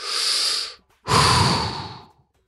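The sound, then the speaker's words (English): A deep breath sounds as two long, fairly loud airy breath sounds with a short silent gap between them, with no talk. “take a breath.”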